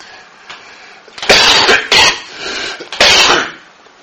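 A person coughs in a short fit: a few loud, harsh bursts crowd together over about two seconds after a quiet start, with no speech.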